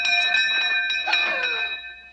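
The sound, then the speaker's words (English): A doorbell rings with bright, sustained metallic tones and several light strikes. The tones hold steady, then fade toward the end. “And then the doorbell rang.”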